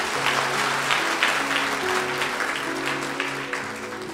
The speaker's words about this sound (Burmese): လက်ခုပ်တီးပြီးဖျားရှင်ချီးမွမ်းရအောင်